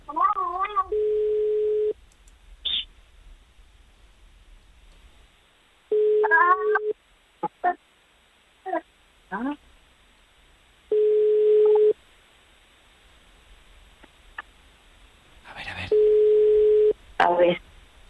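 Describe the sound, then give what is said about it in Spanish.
A steady telephone dial tone sounds in several short bursts while a call is being placed. Brief wavering sounds and clicks fall between the tone bursts. “Estamos marcando el teléfono. Bueno, a ver, si da tono”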